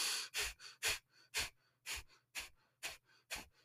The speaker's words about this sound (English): you are going to be in and inhaling and exhaling through the nose. And it's going to sound like this.